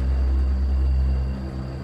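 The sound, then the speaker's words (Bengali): Low, steady engine rumble of an approaching car, a deep droning hum with faint tonal lines above it, loud throughout and easing slightly at the end. “একটা গাড়ির আওয়াজ দূর থেকে এগিয়ে আসছে”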